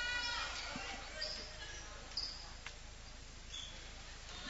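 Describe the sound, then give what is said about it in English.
Basketball bounced a few times by a player at the free-throw line during a girls' basketball game, faint soft thuds under a commentator's voice. “Takes the ball from the official. Couple bounces. She'll throw it up.”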